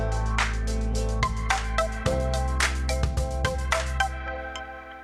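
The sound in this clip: Telephone ringing tones sound as a call is placed, a steady run of bright electronic notes repeating in a regular rhythm with no talk over them.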